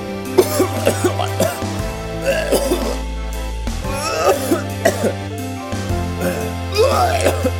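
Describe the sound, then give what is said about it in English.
A voice imitates a harsh, hacking cough in repeated rough bursts. It plays over a steady musical bed with sustained low tones. “He was really coughing. It sounded like a giant ball of hair was strangling his uvula.”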